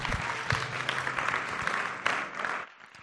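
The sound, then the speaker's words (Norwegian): Audience applause thanking a panel at the close of a discussion event: dense, steady clapping that holds at an even level, then thins out and fades in the final half second. “Kan vi ikke klappe ned panelet, og så sier vi takk til dem?”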